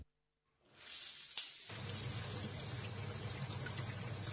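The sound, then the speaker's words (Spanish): A shower being turned on: water builds up softly, a brief sharp knock sounds, then a steady, fairly quiet hiss of running water continues. “Abro la ducha. Me meto por inercia.”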